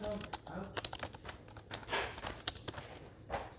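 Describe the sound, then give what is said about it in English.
A note is being written down: a run of quick, scratchy taps and strokes, uneven in rhythm, with people talking over them. “I'm writing it down so we don't forget.”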